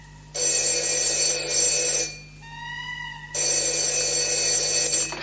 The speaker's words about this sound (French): Ah, un appel.